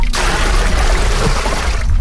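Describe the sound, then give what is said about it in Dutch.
A small bucket dipped into a tank holding fish and filled with water, producing a loud, continuous rushing splash that stays steady throughout. “Kijk, een emmertje in de bak. Water erin, ja.”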